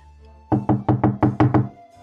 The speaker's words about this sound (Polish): No to pukaj i zapowiedz mnie.